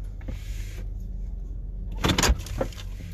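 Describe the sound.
Car power windows closing: a low, continuous vehicle rumble runs throughout, then a short cluster of louder, harsh mechanical bursts comes near the end.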